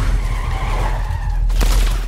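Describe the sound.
Tires screech over a revving engine in a car chase from a spy film trailer, a continuous loud squeal with one sharp burst near the end.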